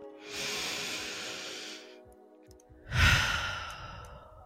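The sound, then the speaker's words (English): A deep breath is taken as two long, airy breaths separated by a short pause, with the second one louder and heavier at its start. The breathing is soft and heard alone. “So as always, let's take a deep breath.”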